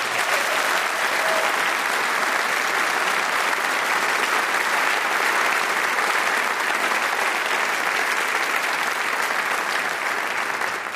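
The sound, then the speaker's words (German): An audience gives a long, steady round of applause for the saxophone soloist of the WDR Big Band Köln. The dense clapping stays even and loud throughout. “Und einen Riesenapplaus erstmal für den Solisten des letzten Stückes, das war Johann Hörlén am Saxophon.”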